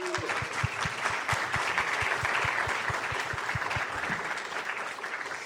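Audience applause welcoming playwright Jack Thorne at a festival: dense, steady clapping from a crowd that holds at an even level for the whole stretch, with a faint regular low thumping beneath it.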